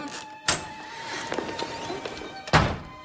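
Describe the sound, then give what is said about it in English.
A French window is opened: two sharp, hollow clunks of the frame, one near the start and one near the end, with quieter rattling and rustling in between. “She rushes to the French windows and opens one.”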